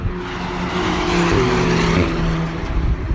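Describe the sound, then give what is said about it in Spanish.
A first-series Porsche 911 race car drives past at the Jarama circuit, its engine a loud, continuous roar with strong low harmonics and a slight shift in pitch midway, heard without talk. “un Alpine, y ahí va el Porsche, el 911 de primera serie”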